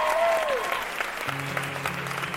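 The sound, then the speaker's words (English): An audience applauds to welcome the Fred Hollows Junior Ambassadors, with steady, dense clapping that holds at an even level throughout. “So, Squiz Kids, put your hands together and give a very warm welcome to the Fred Hollows Junior Ambassadors.”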